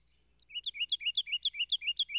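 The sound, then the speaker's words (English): Ruby-crowned kinglet song: a quiet, rapid, evenly paced run of many high, bright twittering notes that repeat the same two-part phrase and grow slightly louder after a soft opening. “I heard for the first time the song of the ruby-crowned wren, or kinglet.”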